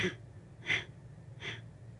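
Breathy exhalations from a person during a guided breathing exercise: three soft airy bursts spaced evenly apart, each a short whoosh of breath standing alone over quiet background.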